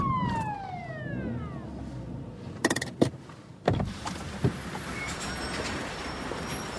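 Police car siren sounding as a driver is pulled over for speeding: a falling electronic wail at the start, then a few sharp bursts of noise over a steady rumble of road and engine noise.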